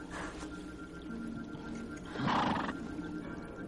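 A horse in a forest gives a short neigh midway through, rising briefly above a soft, low background rumble.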